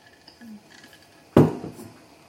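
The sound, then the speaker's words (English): A thin metal fryer strainer clanks once while boba is being cooked: one sharp, bright clatter with a short ringing decay, after faint scattered kitchen noise. “I'm using a little fryer strainer, very thin,”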